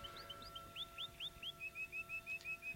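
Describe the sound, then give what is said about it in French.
Songbirds chirp in the woods: a faint, rapid series of many short, high, clear notes, evenly spaced and repeated alone without other sounds. “Fauvette, coucou, mes anges. Loriot, merle, rossignol, doux oiseaux, mes frères.”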